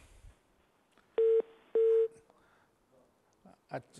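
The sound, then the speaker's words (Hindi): Two short, steady telephone tones sound on the line after a caller's connection drops during a call-in. The evenly pitched pair is loud against a quiet background, with softer scattered sounds before and after. “अच्छा तो ये हमारे पास call drop हो गई।”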